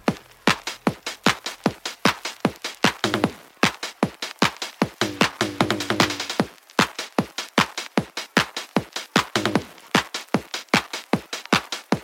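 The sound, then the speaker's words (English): A classic drum machine plays a loud, steady beat of sharp, punchy hits in a tight repeating pattern. Busier rolls and fills crowd in at a few points before the regular groove returns. “This is the sound of a classic drum machine.”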